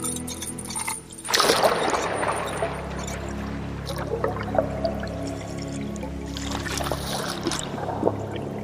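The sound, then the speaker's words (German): Water pours into a jug, opening with a splashy rush and then settling into a soft, steady gurgling stream that runs on with small surges. “Mach schon, füll dich, Kanne, füll dich schnell.”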